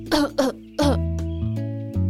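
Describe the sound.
A child coughs, ill with a mycoplasma infection, giving three sharp, throaty coughs in quick succession over soft sustained background music.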